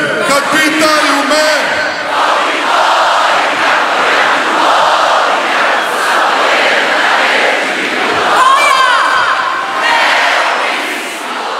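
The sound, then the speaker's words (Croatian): Crowd of tens of thousands of fans on Zagreb's main square, loudly singing and cheering to welcome Croatia's national football team home from the World Cup in Qatar with a bronze medal; a dense, steady roar of voices that holds throughout. “dočekali su ih deseci tisuća upjevanih navijača na zagrebačkom glavnom trgu.”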